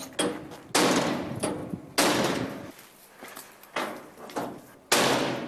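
Heavy banging as a door lock is forced open: a few loud, sharp impacts with short ringing decays, unevenly spaced, some strong and some softer.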